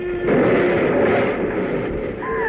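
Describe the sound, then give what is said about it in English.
A model rocket crashes and explodes: a loud burst of roaring noise that starts abruptly after a short moment and rumbles on steadily until the end. “It's going to land right near us. What do we do? Get down. It may explode. Here it comes.”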